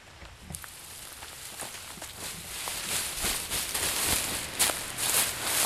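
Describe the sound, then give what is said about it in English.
People tread on dry beans folded inside a sheet to loosen the pods, making many soft crunching, rustling steps that grow gradually louder. “The point is to loosen the dry beans from their pods. They stop periodically to check on the progress and refold the sheet. And then they walk on them some more.”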